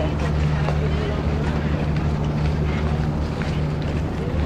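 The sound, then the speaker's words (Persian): A sea bus idles at the pier as passengers board, its engine giving a steady low drone with a constant hum, heard alone with an even, unbroken loudness throughout. “شیبی داریم این پایین بریم که سوار اتوبوس دریایی بشیم”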